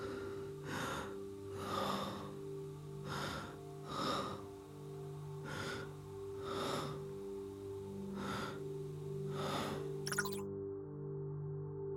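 Rhythmic human breathing, many regular breathy bursts of inhale and exhale at a steady pace over a sustained tonal drone that runs underneath, ending abruptly near the close.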